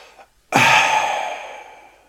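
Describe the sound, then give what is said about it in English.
A voice imitates a car's turbo in a video game with a single breathy, sigh-like whoosh that bursts in suddenly and slowly fades over about a second and a half. “when you hear the turbo it just sounds like somebody sighing when you're driving.”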